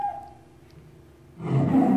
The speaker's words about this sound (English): So if touching mouse pointer, play the sound lion. Otherwise, play meow.